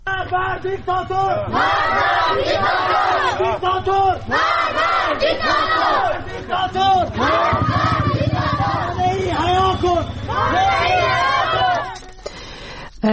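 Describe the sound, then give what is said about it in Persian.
Protesters chanting slogans in the streets of Rask: a loud crowd shouting in rhythmic bursts over a lower, continuous roar of many voices, dying away near the end. “منتشر شده که معترضان در خیابان هستن برای حمایت از مولوی عبدالحمید و همچنین مولوی عبدالغفار نقشبندی که به دادگاه ویژه روحانیت احضار شده بود. ما صدای راسک رو هم میشنویم.”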